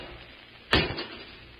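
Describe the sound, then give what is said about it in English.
A single short clank as a cage door is opened, one brief burst that rises out of a quiet hiss and fades within a fraction of a second. “I'll open the cage, Robot 2.”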